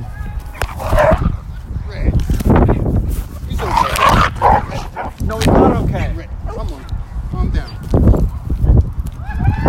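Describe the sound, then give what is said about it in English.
A big dog fighting with a smaller dog: loud, rough barking and growling mixed with yips and whimpers, continuing throughout, with a human voice also present. “All right, it's a big dog trying to fight with my dog. I don't think that big dog was actually trying to kill him,”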